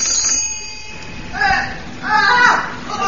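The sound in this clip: A bell rings aboard a naval vessel in a few bright, ringing bursts, the later ones louder, over a faint steady background hum.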